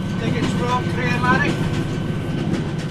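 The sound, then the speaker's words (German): A red Scottish Rail passenger train rolling out makes a continuous, even rumble of wheels and running gear, with faint tonal traces drifting above the low roar. “Um dorthin zu gelangen, besteige ich zunächst die rote Bahn der Scottish Rail.”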